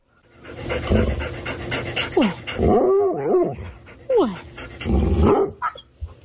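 A greyhound pants heavily and continuously, broken by a few high, sliding whines or yips.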